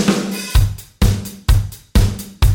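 A four-on-the-floor disco rock drum beat with extra hi-hats: a bass drum thumps on every beat, and quick ticking hi-hat strokes fill the gaps between the kicks at a steady, driving tempo.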